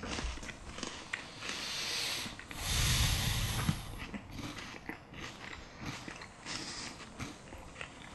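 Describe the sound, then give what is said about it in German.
Someone chewing food continuously, with irregular wet crunching and smacking that runs through the whole stretch at moderate loudness, with no talk over it. “Ich weiß nicht, wie das so ist für den Zuhörer, mir beim Kauen zuzuhören.”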